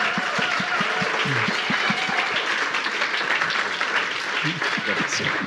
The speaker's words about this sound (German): Let's give a big hand to Pastor. Einen großen Applaus.